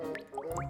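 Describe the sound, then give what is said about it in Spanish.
Water drips into a large, nearly full cookie tin: three quick, quiet plops, each with a short upward-sliding pitch. “Esa está a punto de llenar una lata grande de galletas que te jampeaste anoche.”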